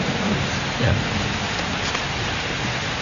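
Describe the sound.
Steady rain falls throughout as a continuous, dense hiss with a faint low rumble beneath it, holding even loudness from start to end with no voices.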